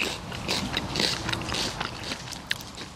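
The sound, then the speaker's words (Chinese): Someone bites and chews a peeled tulip bulb, producing a few faint, crisp crunches like biting into a fresh apple. “我不知道各位能不能通过这个麦克风听到声音啊，咬起来特别脆，就是像吃那个一口脆苹果的那个感觉，那个脆的感觉。”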